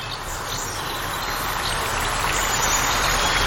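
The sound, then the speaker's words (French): Flowing stream water along a watercourse, a steady, even rushing and trickling hiss that holds at a constant level throughout, with no voices. “Écoute, imagine-toi marcher le long d'un cours d'eau.”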